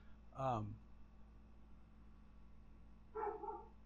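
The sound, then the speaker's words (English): A dog barking, two short, faint barks about three seconds apart, the first one louder and longer, with quiet stretches in between. “stupid dog, shut up”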